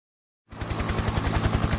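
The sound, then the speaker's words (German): Police helicopters circle over the city on May Day in Berlin's Kreuzberg and Neukölln. Rapid, steady rotor thumping over a broad whooshing roar begins abruptly after a short silence and holds loud to the end. “Das ist der Sound des 1. Mai. In Berlin, unter anderem vor allem in Kreuzberg und Neukölln, kreisen Hubschrauber, beobachten die Lage”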